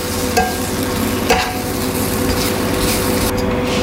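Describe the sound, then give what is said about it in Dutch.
Shawarma sizzles on a small iron plate, a steady loud crackling hiss that runs throughout, broken by a couple of brief scraping strokes. “We hebben nu een klein ijzer plaatje en de gebakken shawarma.”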